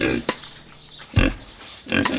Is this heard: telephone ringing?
no